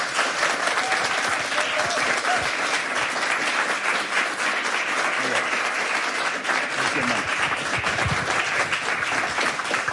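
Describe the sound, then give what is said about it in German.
Audience applause welcoming an Israeli musician at an evening event presenting his concept album, dense and steady clapping that fills the whole stretch at an even, loud level without a break. “Und ich bitte um einen großen Applaus für den israelischen Musiker”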